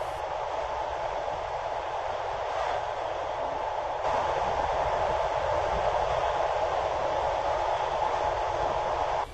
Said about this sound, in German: Die Nacht war kurz, aber schön und der Zug rollte weiter in Richtung Süden.